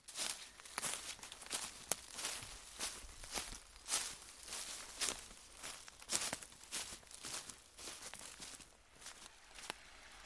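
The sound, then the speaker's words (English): Footsteps walk up along a burn, a small stream, at dusk in beaver country. Many soft, brushy steps rustle and crunch through vegetation in a steady rhythm, with no voices. “The light's fading, so I think we should walk up the burn and see if we can find a spot where we can just sit and watch quietly and see if we can see something.”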